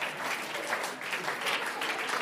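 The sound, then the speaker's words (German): A live audience claps, a crowd's applause that rises and dips in uneven surges of overlapping hand claps, fairly soft overall and never stopping. “könnt ihr ruhig klatschen für den kleinen Caillou.”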